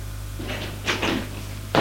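A few dull, uneven knocks on a door, with short pauses between them, fairly faint against a low background hum.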